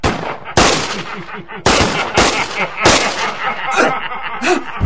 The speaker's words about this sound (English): Your men are killing each other with their own ricochets